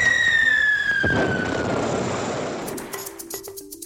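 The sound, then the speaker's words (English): A World War I artillery shell makes its whiz bang: a high whistle slides steadily downward, then a heavy explosive burst gives way to a rumbling, fading decay with light crackles at the end. “in case you're wondering what a whiz bang is, that's the sound of a World War I artillery shell.”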